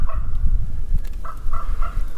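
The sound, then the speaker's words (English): Two ravens playing overhead above a forested trail give a few short, hoarse calls in quick succession. The calls sit over a steady low rumble. “I'm kept company for a while by a pair of ravens playing overhead.”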